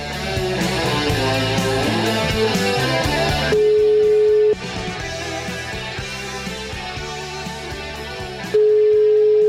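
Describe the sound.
Ringback tone of an outgoing telephone call: two long, steady, mid-pitched beeps about five seconds apart, each lasting roughly a second, sounding over continuous background music.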